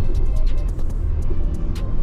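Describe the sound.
Car with a 10-speed gearbox downshifts on a rough-asphalt test track, its engine droning low and steady while many sharp exhaust pops crackle through in quick, irregular bursts.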